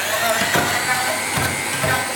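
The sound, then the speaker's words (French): An immersion blender whirs through garlic, lemon juice, salt and sunflower oil as a steady, loud motor drone with a couple of brief knocks against the container. “Une petite pincée de sel, et tu vas commencer à mixer. À mixer.”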